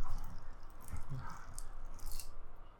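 Cooked or raw rice being forced through a meat grinder makes a continuous wet squishing and crunching, with a few louder squelching bursts as it is pressed down.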